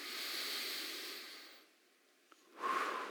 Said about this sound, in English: Everybody do that. Deep breath together.